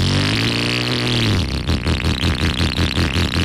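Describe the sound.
A motorcycle engine revs loudly on its own, first holding a steady droning tone and then breaking into a rapid, rhythmic string of pulsing throttle blips.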